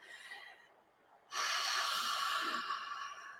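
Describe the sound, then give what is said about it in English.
Deep breathing in and out through the mouth during a breathing exercise. A faint short breath comes first, then a long, loud, airy rush of breath carries on steadily to the end, with no talking. “We'll do in through the mouth, out through the mouth. So it looks like this.”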